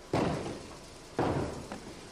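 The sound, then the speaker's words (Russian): Knocking on a flat's front door by a neighbour: two dull, soft thuds about a second apart, then a fainter third, over a steady background hiss. “Стучат, как странно. Ну, ничего странного, соседка наша. Ну, странно, что стучат, а не звонят.”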